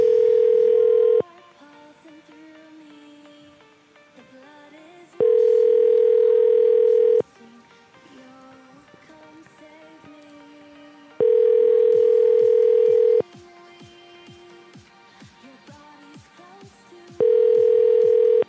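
An outgoing telephone call rings out unanswered: four steady, loud ring tones, each lasting about two seconds, separated by longer gaps filled with faint, busy background sound.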